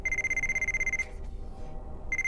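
A mobile phone rings with a steady, high electronic tone pulsing in quick repeated beeps, breaks off for about a second, then starts ringing again.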